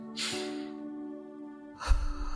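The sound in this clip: A slow, deep inhale during a guided meditation, soft airy breath heard twice over a steady, quiet musical drone.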